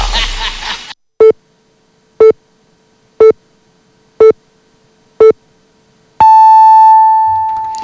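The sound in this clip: A radio time signal marks nine o'clock: after a brief noisy lead-in, five short, high beeps come one second apart, followed by a longer sustained final tone.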